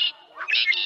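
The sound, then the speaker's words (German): Common blackbird song from a bird-voice clock: a brief, bright phrase of high whistled and chirping notes, fairly faint and heard alone. “Das hier? Das ist eine Amsel. Die müsstest du aber kennen. Die flitzt ja hier durch alle Gärten und kann ein ganzes Konzert allein veranstalten.”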